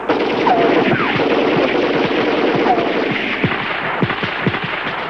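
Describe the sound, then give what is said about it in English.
Gunfire sound effect set in fog: many sharp cracks and bursts over a low, steady rumble, with shots growing denser toward the end. “Flashes of gunfire pierce the fog.”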